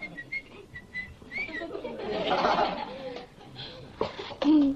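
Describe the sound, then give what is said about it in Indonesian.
A person whistles a few short, high notes, some of them sliding upward, over a faint, noisy background. “Kok denger siulan terus sih?”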